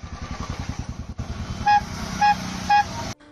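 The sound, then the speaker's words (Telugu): An auto rickshaw arriving with a rapid, pulsing putter of its small engine, followed by three short, bright toots of its horn, evenly spaced over the continuing engine rumble. “Auto వచ్చింది నాన్న.”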